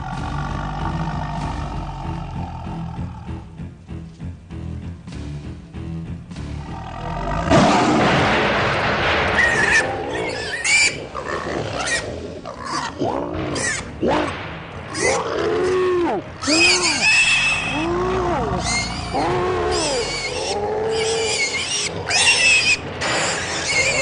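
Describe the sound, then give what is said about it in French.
Wild boar squealing and grunting as a panther attacks it: a quieter, rumbling start gives way to many loud, arching squeals that continue in rapid, irregular bursts. “La panthère s'avance et elle repère un gros sanglier dont elle décide de faire sa proie.”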